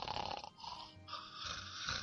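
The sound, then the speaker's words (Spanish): A voice imitates light snoring from a dozing man, making a few breathy, raspy snore-like breaths with a low rattling undertone, steady and fairly soft, with no talk. “me lo imagino con un ligero ronquido de fondo, así algo así como”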